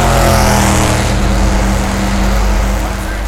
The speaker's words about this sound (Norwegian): 20 seconds to the start of the 31st Formula race on a hot Sunday